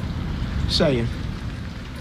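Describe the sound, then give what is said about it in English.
Steady rain patters through a rainy day as a constant, even wash of noise. A brief tonal sweep cuts across it near the middle. “You might hear some rain pitter-pattering in the background. It's a rainy day today”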